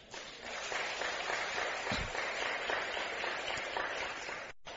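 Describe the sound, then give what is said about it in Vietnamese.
An audience at a talk on love and marriage breaks into applause, a dense, continuous patter of many hands clapping at a fairly faint, even level for several seconds before cutting off abruptly. “Nếu điều đó đó là khả năng nằm ở trong tầm tay thì tất cả hãy dâng cao tràng pháo tay để cam kết làm.”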